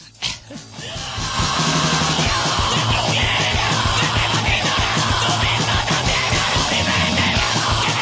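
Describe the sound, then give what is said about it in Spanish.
A crowd yells and shouts in a bar in Recoleta. After a brief ragged start, the voices build within a second into a dense, loud wall of sound that holds steady to the end. “Uy, impresionante como suena esta gente de Recoleta para una birra, ¿eh?”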